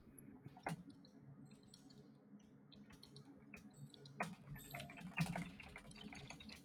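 Typing on a computer keyboard: faint, irregular keystrokes and light clicks scattered throughout, with a few sharper taps standing out.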